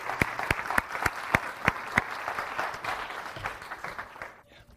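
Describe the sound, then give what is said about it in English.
An audience applauds a guest preacher with warm, steady clapping from many hands. A few sharper claps stand out early on, and the applause thins and fades away just before the end. “So I'm pleased to welcome, if you give him a big hand”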